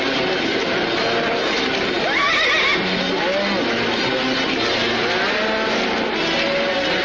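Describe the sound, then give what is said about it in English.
A herd of longhorn cattle breaking through a fence: a dense, continuous, loud rumble of hooves and commotion, with a horse's whinny rising above it. “A herd of longhorns breaks through the fence.”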